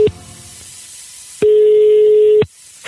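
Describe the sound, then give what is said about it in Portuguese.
Ringback tone on an outgoing phone call, with the tail of one short beep followed by a single steady, loud tone about a second long over faint line hiss. “Vai ligar pra quem, velho? Vou ligar pra Paula, conhecida como Venta de Cachimbo. Vê se ela pega a rapa, só de ser bruta. Atende aí, Paula.”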